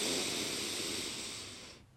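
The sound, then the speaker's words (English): A long, deep inhale through the nose during a guided breathing exercise, a loud airy hiss that slowly fades and stops just before the end. “Let's do another breath in of confidence and energy. Ready? In.”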